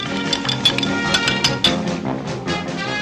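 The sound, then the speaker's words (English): Light clinks of a spoon stirring foaming tea in a cup, several quick metallic taps in the first two seconds over a dense, steady background sound. “Tea isn't supposed to foam. Here. Stir it.”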